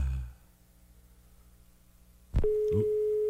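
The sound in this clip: A telephone busy signal sounds on a call that fails to connect: after a quiet stretch, a sharp click is followed by a steady, mid-pitched electronic tone that holds to the end.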